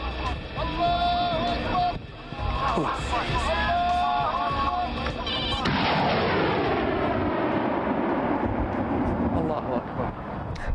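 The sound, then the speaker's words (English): Artillery and gunfire roar almost without a break, a loud, dense barrage that grows rougher and heavier in the second half, with talk mixed in. “are they shooting at anything? It's hard to tell. I think they're trying to blow up the sky.”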